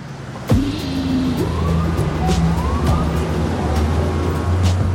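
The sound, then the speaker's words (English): Busy street noise at New York City's Columbus Circle: a steady, loud traffic rumble with a siren-like tone sweeping through and sustained horn-like notes, starting abruptly just after the opening moment. “Sarandos and Hastings stand in the center of New York City's noisy Columbus Circle”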